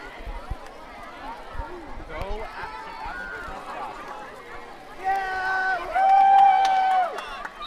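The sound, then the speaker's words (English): An excited, happy crowd at the Vermont Berkshire Stadium courts keeps up a lively murmur of many voices. Sharp squeaky tones ring out in the final seconds as the noise swells louder near the end. “The environment here in Vermont Berkshire Stadium courts is very loud and happy and excited.”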